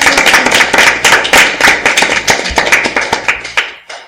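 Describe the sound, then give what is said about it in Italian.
Brief applause from a small group welcoming a band as guests, many sharp, distinct claps at a quick, slightly uneven pace, loud throughout and stopping abruptly near the end. “applausino.”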